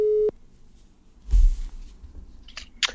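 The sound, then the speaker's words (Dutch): Telephone tone from an outgoing call: one short, loud, steady beep at the start, followed by faint line noise with a few soft clicks and rustles and no talk. “Maar ik ga hem nu bellen en ik, eh, ik hoop dat het goed met hem gaat.”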